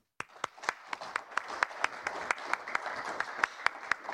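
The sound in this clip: An audience applauds to welcome a panel at a policy discussion event, with crisp individual hand claps popping out at a fairly regular pace over a soft, steady wash of clapping.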